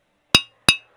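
Two sharp glass bottles clinking together, bright ringing knocks spaced about a third of a second apart, each fading quickly into silence.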